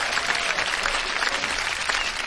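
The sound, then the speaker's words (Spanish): A requested round of applause from a group of people, dense overlapping clapping that stays fairly even in volume with small surges, heard on its own without talk. “¿me puedes dar un aplauso, por favor?”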